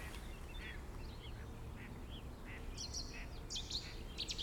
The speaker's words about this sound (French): Je pense qu'il y a une deuxième bouscarle un peu plus loin. Mésange charbonnière.